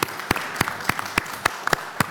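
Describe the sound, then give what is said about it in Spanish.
Applause at a press conference, heard as a handful of sharp, separate hand claps in a slow, fairly steady rhythm, fairly faint and with no talk over them. “En la rueda de prensa, a ver, no se suele aplaudir, pero en las que nosotros hacemos casi siempre aplauden.”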